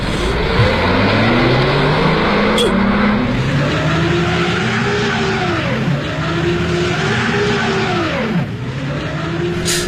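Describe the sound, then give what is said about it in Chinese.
A car engine revs again and again while its wheels spin, stuck in mud. The pitch surges up and falls back several times in loud, straining waves, with a whining, skidding edge over a low rumble. “车轮陷在泥潭里了，走不了了。”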